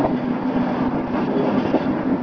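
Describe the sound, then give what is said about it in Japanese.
A train stands at a station while its locomotive is uncoupled, giving off a steady, loud rumble with a low sustained hum running through it. “機関車の切り離し作業を行います。”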